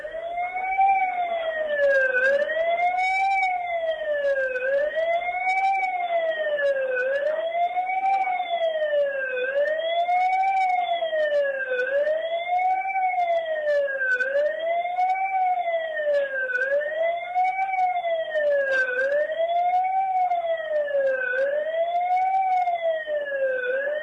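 A siren sounds at a memorial ceremony for the victims of a deadly February 22 disaster, with about ten slow, steady, rising-and-falling wail cycles that stay loud and unbroken with no voices.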